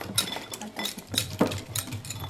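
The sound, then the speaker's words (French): A whisk stirs melted chocolate and butter for brownie batter, making a quick, irregular run of metallic clinks and taps against the bowl, with no talk. “Là je suis en train de mélanger le chocolat.”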